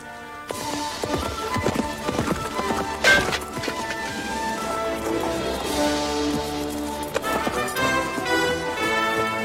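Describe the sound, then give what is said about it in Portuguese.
Horse hooves clip-clop as someone rides, many quick, steady hoofbeats in an irregular rhythm, fairly loud and continuous, with a sustained tonal sound running underneath and no voices. “Cavalgar não é tão difícil como eu pensava.”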